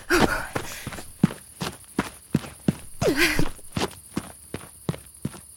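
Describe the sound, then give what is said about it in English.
Running footsteps cross sand toward a parked Jeep: a long run of many quick, evenly spaced soft thuds with a steady rhythm throughout. A couple of brief voiced breaths or grunts rise above the steps near the start and again midway. “Now just a quick run across the sand to the Jeep.”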